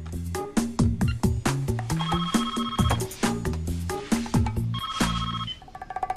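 A telephone rings in a home kitchen before it is answered: a loud, bright run of tonal ringing notes that repeats quickly and steadily throughout, with no talking.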